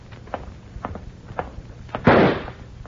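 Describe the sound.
A single gunshot, a loud sharp bang with a short decaying tail, coming after a few faint knocks and clicks.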